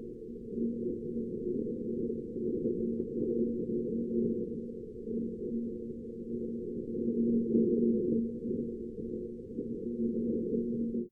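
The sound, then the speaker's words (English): Wind on Mars, recorded and sped up sixty-fold: a steady, low rumbling roar with a faint droning hum, swelling slightly midway and cutting off abruptly at the end. “Now that was the sound of wind on Mars.”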